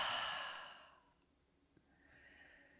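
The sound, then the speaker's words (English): Long, soft exhale through an open mouth, a breathy rush of air that fades away over about a second, leaving faint quiet breath noise afterward. “And now open the mouth and exhale.”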